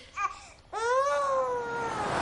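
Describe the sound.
A sick five-month-old baby cries: a brief whimper, then a loud, long wailing cry that starts suddenly, rises slightly and then slowly sinks in pitch as it trails on.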